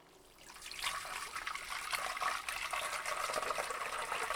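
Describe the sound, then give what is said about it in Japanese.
Hot spring water is poured over a person's back to rinse it. A faint start swells into steady, continuous splashing and pouring that holds at an even level to the end. “それでは、お背中を流していきますね。”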